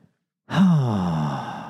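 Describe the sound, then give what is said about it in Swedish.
A deliberately exaggerated exhalation: after a brief silence, one long, voiced sigh starts strong and slides slightly lower in pitch as it slowly fades. “Medan då utandning, om jag överdriver det lite så,”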